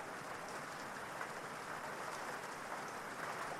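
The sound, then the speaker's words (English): Rain falling as an even, continuous hiss of many drops, steady in loudness throughout with no distinct separate impacts and no voices. “You step down off the porch and into the rain.”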